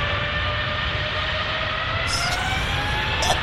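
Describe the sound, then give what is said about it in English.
A Trent 900 jet engine startup played from a soundboard: a steady, loud whine with a hissing roar and sustained tonal hums. “He has a Trent 900 startup. Oh, look. That's a Trent 900 startup. Wait for it.”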